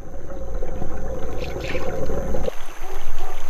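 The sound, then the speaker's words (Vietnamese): Water churning and splashing as an otter hunts at night, a loud continuous swirl that cuts off abruptly partway through, leaving a thinner, quieter wash. “Đó là một con rái cá. Loài vật này săn mồi trong nước hàng đêm.”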